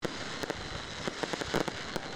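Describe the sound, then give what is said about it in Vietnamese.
Fireworks explode at a New Year's Eve celebration in Bac Giang, many sharp, faint bangs and pops scattered irregularly over a steady background hiss. “Chào đón năm mới, tỉnh Bắc Giang đã tổ chức bắn pháo hoa 2 lần tại địa bàn thành phố Bắc Giang vào lúc 21 giờ đêm 30 và vào đúng thời khắc chuyển sang năm cũ và năm mới.”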